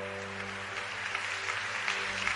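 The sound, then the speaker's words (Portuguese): A church audience applauds the Lord in a steady, even wash of clapping at moderate level. A constant low hum sits beneath the claps. “Pode aplaudir o Senhor, que é santo, que é bom, ele é fiel.”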